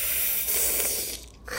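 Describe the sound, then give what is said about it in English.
A deep breath, heard as a breathy rush of air that swells and fades over about a second, a short lull, then a fresh surge of breath at the very end. “Okay, so... That's a deep breath for that one, yeah. Yeah, a deep breath.”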